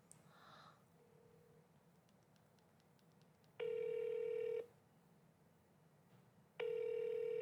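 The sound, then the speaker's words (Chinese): Telephone ringback tone while calling someone: two long, steady electronic tones of about a second each, separated by a gap of quiet background. “我再给他个机会， 打看，再打一次看看。”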